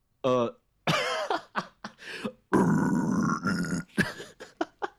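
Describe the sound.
A false chord scream vocal demonstration: harsh, gravelly throat bursts of varying length, with grunting and rasping textures and one longer, sustained roar in the middle.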